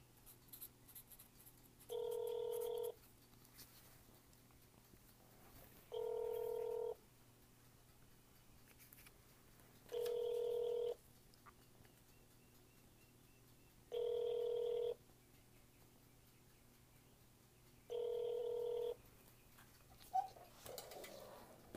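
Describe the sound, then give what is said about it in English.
Ringback tone of a call connecting to a city police precinct office in Minneapolis: five evenly spaced electronic rings about four seconds apart over faint hiss, followed by a brief click. “We are now connecting you to the downtown Minneapolis office of Main Office Police Precinct 1.”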